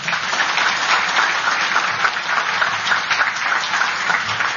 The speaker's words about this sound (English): Robert O'Brien, the 27th National Security Advisor, and Michelle Flournoy, I don't know what number Under Secretary of Defense for Policy you are, please give them a round of applause.